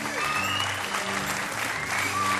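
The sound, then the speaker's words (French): An audience gives a standing-ovation-style burst of applause: dense, loud clapping that holds steady throughout, with voices faintly mixed in. “Je le fais descendre parce qu'il mérite une véritable ovation.”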